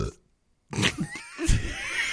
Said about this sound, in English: Are you okay? Yeah, okay. I just burped.